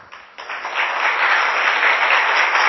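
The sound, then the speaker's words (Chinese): Loud audience applause: clapping starts softly, swells after a moment, then holds as a strong, unbroken roar of hands. “你看啊，鼓掌那么响，你不来，心里会难过。”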